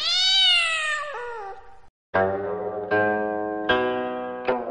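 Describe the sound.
A cat meowing: a long, loud, wavering meow that bends downward in pitch, then after a brief silence a second drawn-out cry marked by several sharp, bright accents.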